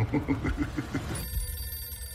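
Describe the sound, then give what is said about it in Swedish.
A telephone rings with rapid, regular bell pulses for about a second, then stops, leaving a quiet steady hum. “First, that phone over there is going to ring.”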